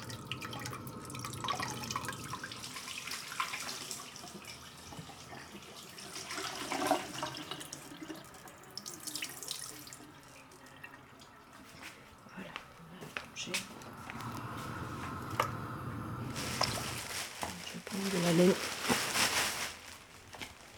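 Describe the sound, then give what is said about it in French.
Wet squelching and dripping as wool is pressed so ash lye runs into water: irregular soft splashes and trickles, rising and falling in loudness, with louder wet bursts toward the end. “On presse bien pour que le jus de cendre aille bien dans l'eau.”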